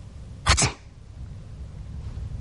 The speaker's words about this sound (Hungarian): tüsszentett, amint tetszik látni.